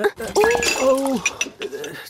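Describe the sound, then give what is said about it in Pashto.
Dishes clink and clatter as a stack of them and a yogurt bowl are handled together, with bright, irregular knocks against a voice that rises and falls in a sing-song way. “داسې کوې دومره لوښي دې یو ځای په لاس کې نیولي لالالالا دا د مستو کاسه رانه در واخله”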